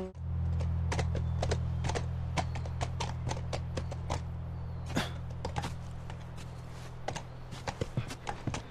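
Horse hooves clip-clopping near a ranch in a video game: many sharp, irregular clicks over a steady low hum, growing sparser and more uneven toward the end.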